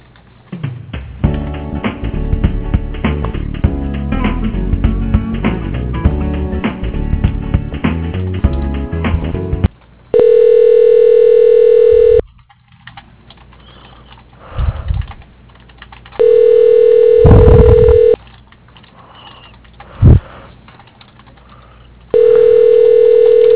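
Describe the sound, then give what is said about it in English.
A telephone ringback tone plays while a call is transferred to voicemail: three long, steady, even-pitched rings separated by quieter gaps, following a busier, clattering stretch at the start. “let me transfer you to his voicemail as well. Hold on.”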